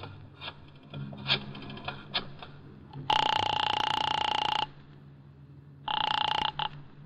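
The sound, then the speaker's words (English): A telephone is dialed from a phone near a drugstore: a few soft clicks, then a long, loud electric ring, a pause, and a second, shorter ring. “I got out and found a telephone. I dialed the Kelsey residence.”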